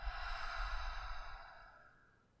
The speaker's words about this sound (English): I'm taking a deep breath in. Let it go.